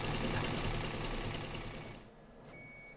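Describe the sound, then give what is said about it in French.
A four-head embroidery machine runs with a steady mechanical whirring rattle, joined by thin high tones; the noise drops to a quieter level about two-thirds of the way through. “Donc là, j'ai lancé la brodeuse 4 euh, têtes.”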